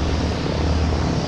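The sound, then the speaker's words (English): Engine roar from a World War II C-47 transport plane arriving at an airport for an air show, a loud, steady propeller drone that fills the short clip without any talk. “That's the sound of a World War II C-47 transport plane arriving at Camarillo Airport.”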